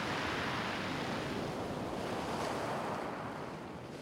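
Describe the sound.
Sea waves and wind at the foot of a cliff at Étretat: a steady, loud roar of surf mixed with blustery wind noise, continuous throughout with no voices, easing slightly toward the end.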